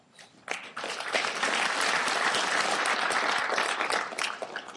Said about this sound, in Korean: 네, 큰 박수로 환영합니다.